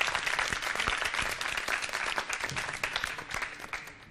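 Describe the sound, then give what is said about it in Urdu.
Audience applause welcoming a team, a dense burst of many clapping hands that starts loud and gradually tapers off toward the end. “Team C سے درخواست کروں گی یہاں تشریف لائیں، ان کے استقبال کے لیے تالیاں ہونی چاہیے۔”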